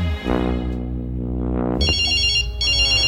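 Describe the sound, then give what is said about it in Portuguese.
A telephone rings with an electronic ringtone: a low, buzzing drone gives way to two loud, high-pitched trilling bursts separated by a brief gap. “É a mulher ligando lá de casa. O que é que ela quer, hein?”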